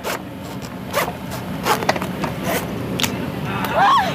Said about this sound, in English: When they're done with that, they reach for the bone saw.